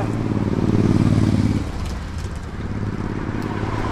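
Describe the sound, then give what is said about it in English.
Traffic on a busy road: a loud vehicle engine rumbles strongly for the first moments, then eases into a lower, steadier wash of passing cars. “Yeah. Busy road.”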